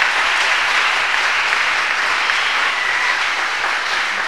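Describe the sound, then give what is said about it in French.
An audience claps for the Lord during a church service, giving steady, even applause that holds at one level throughout with no break. “Clap for the Lord. Acclamez le Seigneur.”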